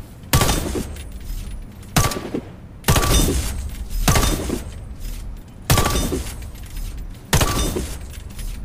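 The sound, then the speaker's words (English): Rifle fire from the rifleman class in the shooter game Warface: seven sharp, loud single shots at irregular intervals, each trailing a brief decaying rumble. “the rifleman thing, it recoils about 5 inches down. So aim 5 inches down after each shot, you'll automatically aim a couple more inches off.”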